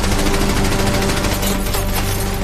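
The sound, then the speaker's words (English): Machine-gun fire hammers the walls and windows of a company headquarters during a wartime battle. It comes as a dense, loud, unbroken burst of rapid shots that fills the whole stretch. “The machine guns burst against the walls and windows.”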